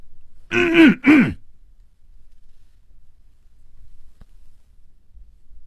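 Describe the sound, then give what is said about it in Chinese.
A man coughs twice in quick succession, short, throaty, voiced bursts, followed by near silence with only a faint low background murmur. “他努力地鼓足了勇气，咳嗽了一声。”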